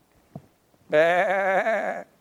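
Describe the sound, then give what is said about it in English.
A single sheep bleats in one wavering, quavering call about a second long, clear and alone, preceded by a faint click. “To give the kingdom of God to sheep. Can you see it? Here they come.”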